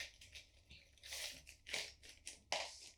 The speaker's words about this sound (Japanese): スナック菓子？アボカド醤油味。アボカド醤油、どんな味なのそれって。ちょっと食べてみようよ。